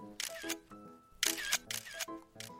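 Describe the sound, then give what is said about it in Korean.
A camera shutter fires a few times for a group photo marking the end of a project, with sharp, crisp clicks over a faint tonal background. “우리 프로젝트 끝난 기념으로 사진 한 방 찍을까?”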